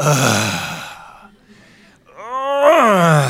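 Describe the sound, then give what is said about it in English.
A human voice imitates the groan people make when sitting down or kneeling. Two drawn-out moaning sounds are separated by a short pause, and the second one wavers and swells in pitch. “in order to sit or kneel, you must groan, right? It's just like,”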